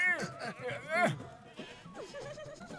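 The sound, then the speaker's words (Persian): Sheep bleating as they escape from an unlocked cage on a cart: several wavering, nasal bleats overlap in quick succession, rising and falling in pitch. “وای گوسفندان.”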